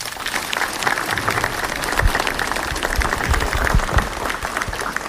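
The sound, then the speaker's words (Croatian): Applause for first-graders at a school ceremony, with a crowd clapping steadily and densely throughout, holding a fairly even loudness with slight swells. “Molim pljesak i za njih.”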